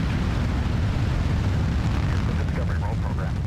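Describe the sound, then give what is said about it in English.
Deep, loud, continuous roar of the Space Shuttle Discovery launch at booster ignition and liftoff. A heavy low rumble holds steady throughout, with a voice faintly audible over it. “booster ignition, and liftoff of the Space Shuttle Discovery”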